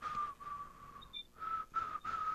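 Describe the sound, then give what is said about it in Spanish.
A person whistles a tune in clear, fairly high sustained notes with brief breaks between phrases, quiet and with no talking. “Voy a silbar mientras tanto.”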